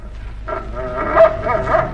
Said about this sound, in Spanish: El perro puede guiarnos siguiendo el rastro hasta el escondite de la organización.